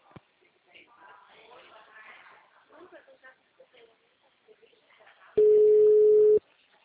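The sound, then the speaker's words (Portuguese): Telephone tone after a dropped call: a single loud, steady electronic beep lasting about a second, following faint muffled talk on the line. “A ligação caiu, moço.”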